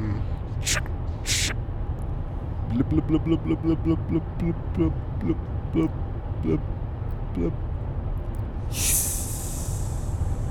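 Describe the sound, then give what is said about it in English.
Spin and speak toy playing recorded sounds: two short noisy bursts, then a run of tonal, voice-like pulses, and a bright hissing burst near the end. “I wanna use the uh, the spin and speak again real quick and I just want to see what what happens”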